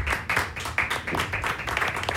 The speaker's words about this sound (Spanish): El aplauso para ustedes mismos, pues.